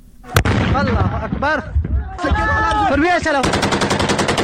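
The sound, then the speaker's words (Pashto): Gunfire in a border firefight between Taliban fighters and Iranian border police in a frontier district: one sharp, loud shot near the start, then many rapid, evenly spaced bursts toward the end, with shouting voices throughout. “احمد تکل د دې ډزو جګړې په اړه رپورت لري چې د ډزو په غږ پیلېږي.”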